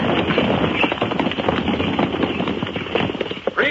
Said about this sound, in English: Pike's detachment of nine ragged privates stands at attention at the entrance to Pike's tiny fort as the Spaniards ride up to a halt.